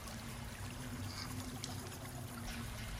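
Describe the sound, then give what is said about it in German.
Liquid trickles steadily from a small vial into a child's ears, a soft continuous watery hiss that holds level throughout without clear breaks. “Mit etwas Kraft schiebt er den Kopf des Kindes zur Seite und träufelt ein wenig von der Flüssigkeit in seine Ohren.”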